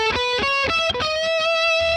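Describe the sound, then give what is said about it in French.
A heavily saturated electric guitar plays a solo in E major, its distorted notes held with long sustain and trailed by delay and reverb, moving through several pitches before settling on one long held note. “Le son, vous revenez au son saturé, très saturé pour avoir du sustain, un délai, une reverb. Et alors là, encore une fois, le solo va vraiment coller à la grille”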